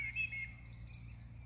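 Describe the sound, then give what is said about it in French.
Faint birdsong: a few short, high chirps at the start, followed by softer, higher tweets, all over a steady low hum. “Comme si le chant des oiseaux pouvait venir se déposer à l'intérieur de votre corps.”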